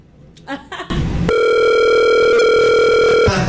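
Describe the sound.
A telephone rings with a steady electronic tone rich in harmonics, held loud and unbroken for about two seconds after brief talk at the start.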